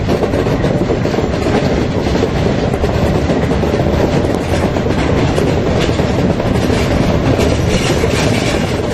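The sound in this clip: A locomotive runs on rails as it enters Halberstadt. It makes a loud, continuous rumble and rattle, with a steady clickety-clack of wheels under the dense roar and no voices throughout.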